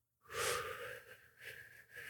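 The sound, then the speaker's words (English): A slow inhalation for a box-breathing exercise: one long, soft, airy breath that swells and eases a few times as it continues. “We're going to breathe in.”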